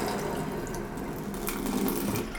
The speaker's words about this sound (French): toute l'eau qu'il y a dans les tuyaux à partir du haut, elle va couler. Et du coup, je vais remplir, à mon avis, une bonne bassine.